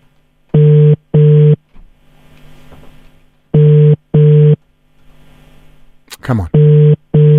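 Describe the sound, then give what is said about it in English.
A telephone call rings out while the caller waits to leave a voice message: three double-pulse ringback tones, each a pair of short, steady low buzzing beeps separated by gaps holding faint background voices. “Okay, let's hear if it's going to ring. If we're going to at least just leave a voice message at least. There we go.”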